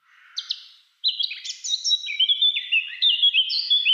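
A Eurasian blackcap sings, opening with a faint, scratchy chatter that gives way to a continuous run of loud, clear, fluting whistled notes that step up and down in pitch.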